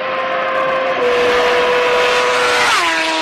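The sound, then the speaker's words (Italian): Roaring car engines, tied to the opening of the Detroit International Auto Show, form a loud, steady, dense rush throughout, with a tonal line dropping in pitch near the end. “Motori rombanti”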